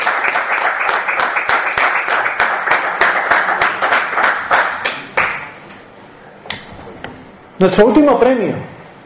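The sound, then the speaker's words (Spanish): Audience applause at an awards presentation: dense, steady clapping for about five seconds that then stops, followed by a voice speaking. “Un aplauso al cielo, un aplauso a José Antonio Colinet”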